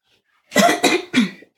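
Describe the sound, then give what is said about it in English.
Throat clearing comes in three rough, rasping bursts in quick succession, loud and alone after a stretch of silence. “Sorry about all the throat clearing.”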